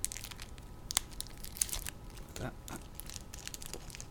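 A Magic: The Gathering booster pack wrapper being torn open gives off crinkling and tearing: a few sharp crackles stand out over a steady, soft rustle of the plastic. The sound is fairly quiet and no one speaks.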